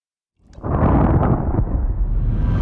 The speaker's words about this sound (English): Finally, everything explodes.